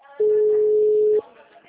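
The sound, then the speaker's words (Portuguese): A single steady ringback tone of about a second plays while a phone call is being placed, sounding as one even, unbroken note with faint voices around it. “Estou ligando, está atendendo.”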